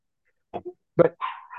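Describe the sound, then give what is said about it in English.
A small dog gives a few sharp, yappy barks in quick, uneven bursts, the later ones louder and more drawn out, with no voices. “But my little doggy wants to bark, and I want to go take care of him.”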